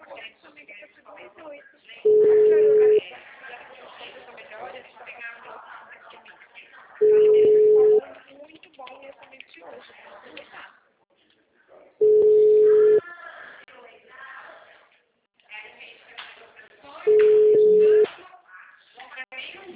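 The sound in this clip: A telephone ringing tone on an outgoing call sounds four times as steady mid-pitched beeps about a second long, spaced roughly five seconds apart, while people talk throughout.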